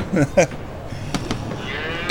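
Cattle mooing: two short lowing calls come right at the start, followed by faint knocks and a soft hiss.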